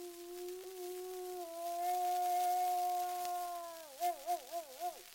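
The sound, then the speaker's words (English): A mother wolf's long howl calls off the pack: a steady, sustained tone holds, then breaks into four wavering pulses at the end. “That's the old mother wolf calling them off, for she knows they cannot get that deer, and away they go to find an easier meal.”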